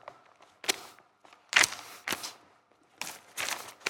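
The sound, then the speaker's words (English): Paper pages rustle in several separate short bursts of crisp, hissy noise, each a brief swish with quiet gaps between. The sound is faint overall and heard alone. “The rustling of the pages”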